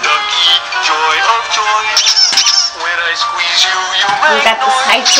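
A squeezed rubber duck gives many rapid, high, honking squeaks that run together in a loud, continuous stream.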